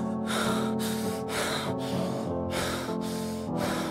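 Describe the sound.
Deep breathing done to calm down, as a breathing-technique exercise: several strong, quick breaths follow one another in a steady rhythm, loud and without talk, over a low sustained hum.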